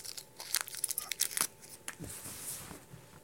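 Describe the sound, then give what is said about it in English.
Crinkling and tearing of wrapping as a wrapped object is unwrapped: many quick, crisp rustling bursts, denser at first and then thinning into softer crackles. “Let me unwrap it.”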